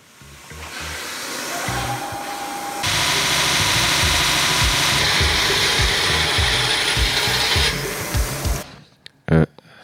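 Ratcheting clicks and clanks of hand tools such as pliers, nuts and screwdrivers at work on a model, a fast steady mechanical chatter that runs loud and dense, then ends in a few sharp knocks followed by quiet.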